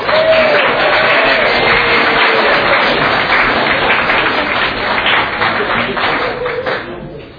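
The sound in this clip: Audience applause at an Alcoholics Anonymous meeting welcoming a speaker: dense, steady clapping that holds for several seconds and tapers off near the end.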